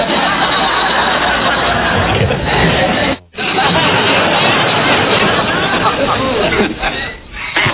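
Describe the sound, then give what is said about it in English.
A studio audience reacts to a talk-show host announcing his operation, loud dense crowd babble and clamour filling the whole stretch, broken by one brief sudden drop in the middle. “This is the audience's reaction to Regis announcing his operation.”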